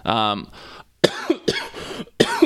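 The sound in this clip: Throat clearing and a few harsh, sharp coughs, loud bursts separated by short pauses.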